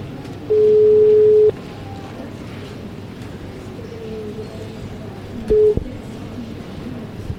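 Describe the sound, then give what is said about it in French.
A French telephone ringing tone on an outgoing call sounds as two steady, mid-pitched tone bursts: a long one near the start and a short one later, each standing out over a low background hiss. “Ça marche pas. Qu'est-ce qui se passe? Si, ça sonne.”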